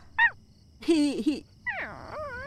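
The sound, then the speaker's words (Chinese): A Labrador dog whimpering: a short high yip, then two longer whining cries, the last one drawn out and wavering in pitch, fairly loud with no speech. “拉布拉多，这只狗叫拉布拉多。”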